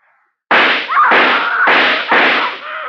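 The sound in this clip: Gunshots fired into a wall: four sharp, loud cracks about half a second apart, each with a ringing decay that runs into the next.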